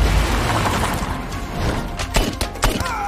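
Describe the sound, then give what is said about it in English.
An SUV reverses through a garage door in an action film: a low rumbling roar breaks into a few sharp, cracking crash impacts near the end. “As Carver gets to the shot-out window, David reverses Laura's SUV through the garage door.”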